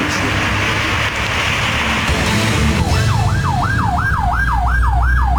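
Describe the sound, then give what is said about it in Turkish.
A fire engine siren in Diyarbakır, Turkey, with drivers pulling aside to let it pass. A steady low road rumble comes first, then from about three seconds in a loud, fast, repeating rise-and-fall wail. “Diyarbakır'da sürücüler itfaiye aracına yol vermek için fermuar sistemine geçti.”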